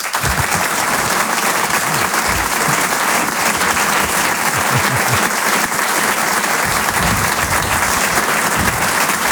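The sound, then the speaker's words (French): An audience gives an ovation for a performer, with dense, steady clapping that stays loud and even throughout and no talk over it. “Une ovation, s'il vous plaît, pour Selig.”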